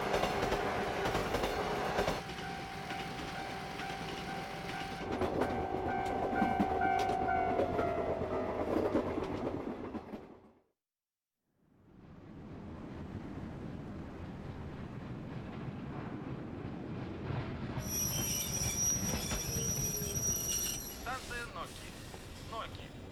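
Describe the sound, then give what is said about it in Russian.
Passenger train stopping at a station: low rumbling and rolling wheel noise with a tonal whine. The sound cuts out briefly, then the rumble returns with high-pitched tones near the end, all fairly quiet. “В связи с задержкой следующего поезда, наш поезд сделает на этой станции остановку продолжительностью 10 минут.”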